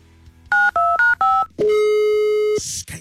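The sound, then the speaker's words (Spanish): Touch-tone keypad dialing of a telephone number: four short, loud, clear beeps in quick succession, then a longer steady tone of about a second, ending with a brief burst of noise. “A ver, vamos a marcar otra vez. Una oportunidad más ya.”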